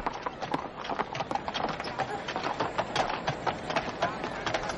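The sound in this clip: Hooves of a huge, lazy horse walking beside a man, in many steady, evenly spaced clip-clops that keep a relaxed rhythm throughout, with a voice speaking alongside.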